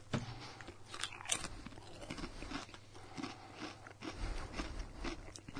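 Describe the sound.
Potato chips crunching as someone chews them while comparing American and Chinese chips, with steady, faint, crackly bites and chewing continuing without pause and no talk.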